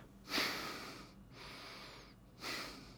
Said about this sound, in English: that's me breathing through my nose now. I never, ever used to be able to do that.